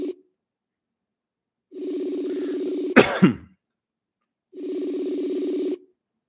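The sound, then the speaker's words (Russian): Ringback tones sound as a phone call is placed: steady, buzzing tones about a second long repeat with silent gaps, and a brief cough interrupts between two of them. “Ну, сейчас попробую еще раз Ксению набрать.”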